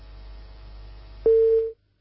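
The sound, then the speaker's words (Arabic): A telephone tone after a dropped call: one steady mid-pitched beep lasting about half a second. It comes in loud over a low line hum and cuts off abruptly into silence. “يبدو الاتصال انقطع.”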